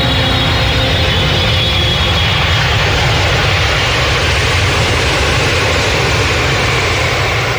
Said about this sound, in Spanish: Nuestro avión ya despega.